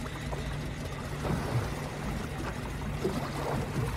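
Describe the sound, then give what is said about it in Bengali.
A muffled motor boat engine hums low and steady beneath the rushing wash of a river current, a continuous blend of water noise and engine drone with no clear breaks. “শুনতে পাচ্ছিস? Motor boat ইঞ্জিনটাকে কিছু দিয়ে চাপা দিয়েছে বলে আওয়াজটা স্পষ্ট শোনা যাচ্ছে না। যেটুকু শব্দ হচ্ছে নদীর স্রোতের আওয়াজে ঢাকা পড়ে যাচ্ছে।”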